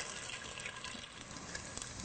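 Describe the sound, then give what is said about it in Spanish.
Tofu frying in oil in a pan as it turns golden, giving a steady, bright sizzling hiss with small crackles and pops scattered through it. No voices are heard. “¿Ven cómo se está friendo el tofu? Ya está quedando doradito.”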